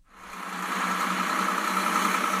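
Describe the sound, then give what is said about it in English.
Engines idling in start-stop rush-hour traffic on a major highway: a steady, low, droning hum with a broad rumbling wash over it, rising in at the start and then holding even. “A major highway in the region in start-stop traffic at rush hour.”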